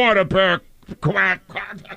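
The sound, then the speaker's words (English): A person imitates a duck with a few loud, nasal, honking quacks in short bursts, separated by brief pauses. “let me hear that again. I think he started quacking on the Eagle station.”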